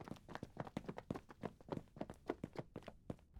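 Rapid footsteps of several people jumping up and rushing out of a room, a quick, uneven run of many sharp steps, fairly faint and with no talk over them.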